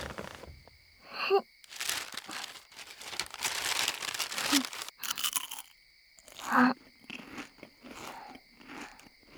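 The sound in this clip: Crunching and chewing of potato chips: many crisp, crackly crunch bursts, some loud and some quieter, separated by brief pauses, with soft chewing between them.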